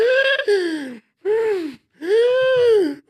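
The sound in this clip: A voice imitates the breathless gasping of an asthmatic after running: a few long, strained vocal gasps, each arching in pitch and separated by short silences.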